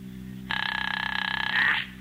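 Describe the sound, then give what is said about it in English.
A telephone rings once for about a second and a half, a loud, rapidly warbling electronic trill that cuts in sharply and stops, over a low steady hum. “Answer the phone.”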